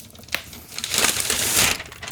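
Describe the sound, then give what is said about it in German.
Paper wrapping on a black package crinkles and crushes as it is torn open, a dense rustling that starts soft with a sharp crack and grows louder and fuller toward the end. “So, Papier habe ich jetzt aufgemacht.”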